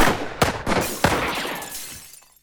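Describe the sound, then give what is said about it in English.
A gunshot knocks a gun out of a hand: two sharp, loud cracks mix with shattering glass bottles, and the bright crash rings on, then fades out with no talk. “My shoulder! My gun! He shot the gun right out of my hand!”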